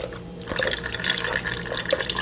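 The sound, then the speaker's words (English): Rinse water drains off homemade butter in a steady trickling, splashing flow with small drips throughout, fairly faint and with no voices. “Then drain out the rinse water.”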